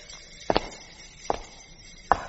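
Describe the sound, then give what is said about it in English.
Footsteps go down stone steps into the dungeons of the Bloody Tower: three sharp, slow footfalls spaced evenly apart, the first one doubled, over a low hushed background. “Come on, down these steps.”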